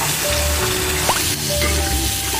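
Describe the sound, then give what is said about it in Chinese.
Pig's trotters stir-frying over high heat give off a steady, loud sizzle and hiss that carries on without a break and with no voices. “爆炒后的猪脚加入藕段和冷水，大火炖煮一个小时”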